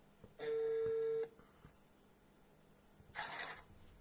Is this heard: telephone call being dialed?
yes